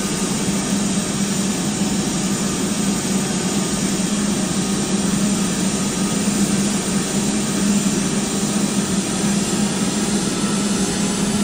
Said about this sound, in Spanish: Ahí va a despegar el FedEx.